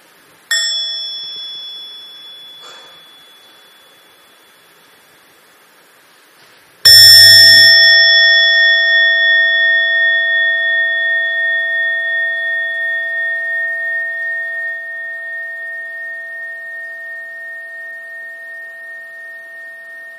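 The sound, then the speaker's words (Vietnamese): A Buddhist meditation bell is struck lightly, then given a full strike that rings out in a loud, clear tone with steady overtones, fading slowly with a gentle pulsing over many seconds. “Và khi mà nghe tiếng chuông tròn đầy thì mọi người đều thực tập với nhau”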